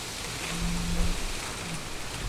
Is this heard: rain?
yes